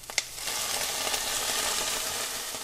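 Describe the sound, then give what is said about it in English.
Short grain white rice browning in whole butter in a pan gives a steady, soft, hissing sizzle that continues evenly throughout, with no voices. “I'm browning it in whole butter, so it's getting nice and toasty.”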